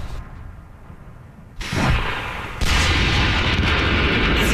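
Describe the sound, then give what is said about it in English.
Artillery fire and sniper shots during a military war exercise over a wide valley, heard as a dense, continuous rumbling roar that jumps louder in two abrupt steps, with no separate shots standing out. “The war scenario is well underway. You can hear snipers, there's artillery”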